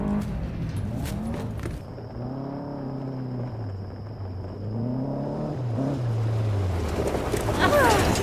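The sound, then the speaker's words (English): An all-terrain buggy engine running outdoors at night: a low motor hum that rises and falls in pitch, with a thin steady high whine above it for a stretch and some rougher noise near the end. “You couldn't have gone with a vehicle with a heater? Oh, come on. The buggy's the best thing for all terrain.”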